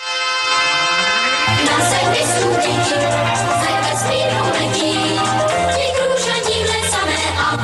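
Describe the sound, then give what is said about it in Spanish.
Theme music from the Czechoslovak series La niña del espacio: a sweeping synthetic tone opens into a loud, dense electronic theme over a steady, pulsing bass. “Y luego la Niña del Espacio, que es una producción checoslovaca súper rara. Sí, que la he tenido que buscar porque no tenía ni puta idea y suena así,”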